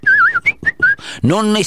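A person whistles a short tune: a warbling opening note, then a few quick, clear, high notes in a bouncy rhythm, loud and with no talk.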